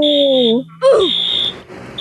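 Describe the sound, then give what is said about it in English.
A fire alarm going off at a workplace. A shrill, steady high-pitched tone sounds in a few bursts, with people talking loudly over it. “Are you kidding? Our fire alarm just went off.”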